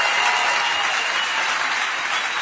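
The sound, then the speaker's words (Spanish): Theatre audience ovation at Teatro Caras y Caretas, a loud, dense wash of clapping that holds steady and even throughout. “Vamos a saludar con una ovación a Patricio Bartón.”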